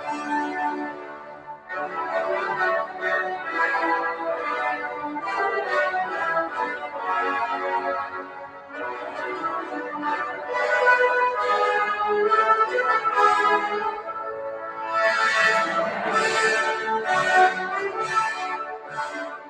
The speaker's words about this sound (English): but what you just heard is Rule Britannia, which is essentially the anthem to the British.